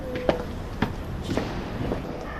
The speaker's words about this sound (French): On monte les marches et on y rentre. Eh bien on y va.